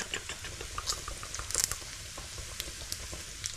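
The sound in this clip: Bacon frying in a pan gives a faint, continuous sizzle. Fine crackles and tiny pops are scattered irregularly through the hiss.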